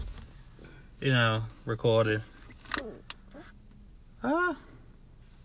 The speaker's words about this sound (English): And sorry for the loud noise in the back. If you hear any noise in the back. We're actually driving while we,